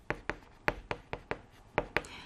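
A pen writes in eight short, sharp, quiet strokes, each with a quick tick and a brief tail, in an uneven rhythm with no talk.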